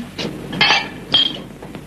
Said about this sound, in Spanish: Dentro de la casa, Mary Kay trae una botella y un vaso y sirve un chorrito.